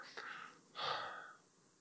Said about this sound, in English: I probably need to stop and breathe again,